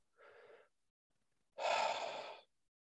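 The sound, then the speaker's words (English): A person breathes deeply, alone with no talk: a brief, soft breath comes first, then after a pause a longer, louder deep inhalation lasting close to a second. “I breathe for me. Nice breath in.”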